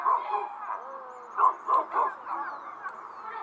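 Dogs bark and yip in short, mid-pitched bursts, a few scattered calls with a tighter cluster of three near the middle, fairly clear against a quiet background.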